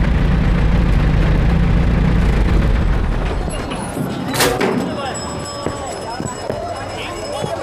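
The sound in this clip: A car engine rumbles low and heavy as a vehicle pulls up at a closed city gate, then drops back to a softer, steady idle.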